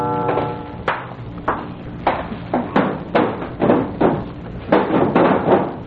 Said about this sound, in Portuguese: Está batendo a janela aí.